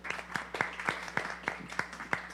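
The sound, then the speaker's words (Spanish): Audience applause for a guest commentator: sparse, evenly spaced handclaps in a steady rhythm, each clap crisp and distinct rather than blending into a dense wash. “Un aplauso para Max y sus comentarios.”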